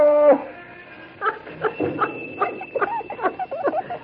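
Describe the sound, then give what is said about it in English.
Dog whimpering and yipping in a rapid run of short, high, uneven cries, the dog loaded with a sack of potatoes on its back. “All right, doggy. He sure looks funny with that sack of potatoes on his back, don't he?”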